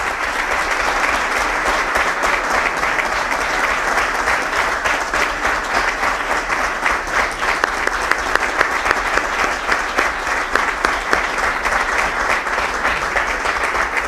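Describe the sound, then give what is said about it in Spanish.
Sustained, loud applause from an audience at a formal ceremony honoring a promoted local police chief, an even clatter of many hands clapping throughout. “Y pido y aprovecho este acto para que le demos un fuerte aplauso”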